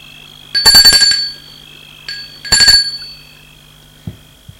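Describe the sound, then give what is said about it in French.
A doorbell rings at a house door: a few bright, metallic ringing bursts over a low, steady hum. “Sonne à la porte.”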